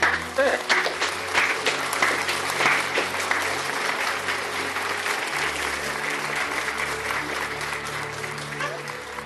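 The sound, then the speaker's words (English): A church audience claps together during a service at the preacher's urging. The applause is dense, loud and sustained, and it eases only slightly toward the end. “You see, people of God, clap for Jesus for the prophetic. Clap for Jesus for the prophetic.”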